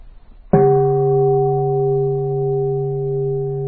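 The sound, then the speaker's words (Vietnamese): A Buddhist temple bell in a meditation hall is struck once: a sharp onset, then a long, steady ringing hum with several clear overtones that sustains loudly to the end with no other sounds. “Và nếu cái đạo tràng của chúng ta mà rộng, cái chuông này âm vang nó không có đủ lớn á, thì mình phải thỉnh hơi mạnh tay một chút.”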